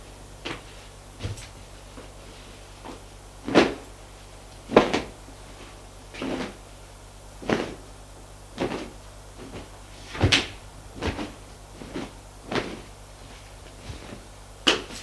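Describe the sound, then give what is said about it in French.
Household items clatter and knock as a cupboard is emptied: many sharp, irregular thumps and wooden bumps, some louder than others, spread across the whole stretch with no voices. “Vide le placard.”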